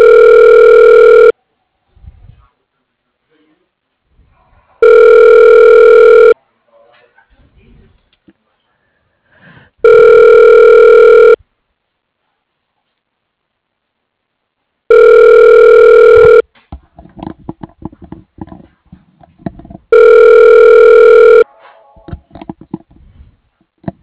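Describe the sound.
Five ringback tones of a telephone call being connected, each a steady electronic buzz about a second and a half long, evenly spaced, with quiet gaps holding only faint scattered noises.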